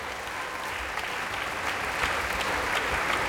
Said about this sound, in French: Et un public qui n'est pas prêt de s'en aller, vous l'entendez. Voilà, tout le monde remonte encore une fois sur scène.